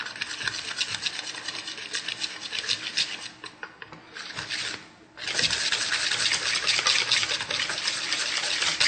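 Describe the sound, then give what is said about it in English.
Batter made with club soda being stirred: continuous scraping, swishing strokes with a rough, rhythmic texture. A brief lull comes near the middle before the steady stirring resumes. “which is like carbonated water, which I like to use it because it adds the airiness, so makes the batter a little bit lighter. So I'm just gonna stir this around.”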